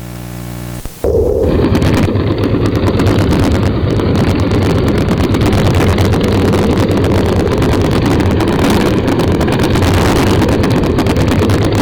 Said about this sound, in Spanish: ahora lo que vamos a ver es una simulación de los datos que acabamos de ver puestos en imagen y en sonido. Entonces, vamos a coger, para empezar, un barco razonable, un pesquero.